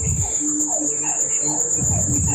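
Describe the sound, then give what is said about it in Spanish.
Frogs croak in chorus, with overlapping rhythmic pulsed calls repeating throughout over a constant high, thin insect-like trill. “No, hombre, está en concierto ahí. El concierto de las ranas.”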